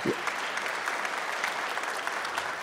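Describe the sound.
Steady, faint applause from a church audience welcoming a speaker to the front, an even patter of many hands clapping without pause.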